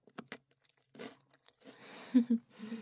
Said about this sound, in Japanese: なんかもごもご食べてる姿、ハムスターみたいだね。